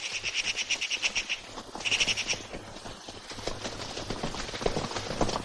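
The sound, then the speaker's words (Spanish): Horses gallop at speed in a 1978 adventure film, their hoofbeats forming a rapid rhythmic pulse that is strongest at first, then turns looser and more uneven. “Los dos continúan cabalgando velozmente bajo el sol del atardecer y seguidos de cerca por Curro y sus amigos.”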